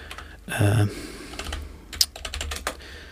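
Clicking keys on a computer keyboard as a name is typed into a music streaming app's search: a dense burst of clacks early on, then a string of lighter taps and one sharper click.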